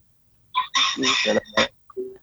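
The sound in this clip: A rooster crows once, loud and harmonic-rich, in a drawn-out call of several connected segments, then gives a short, quieter cluck after a brief pause.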